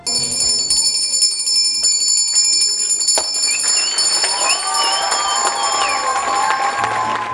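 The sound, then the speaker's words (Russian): A school bell rings continuously at a last-bell ceremony marking the end of the school year, bright and sustained over crowd noise. “В завершении торжества прозвенел последний звонок.”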